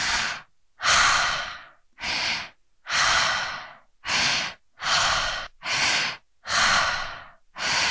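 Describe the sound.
Deep breathing through the mouth as a breathing exercise: many loud breaths alternate steadily between an active inhale and a relaxed exhale. The cycle runs with no pauses and no speech.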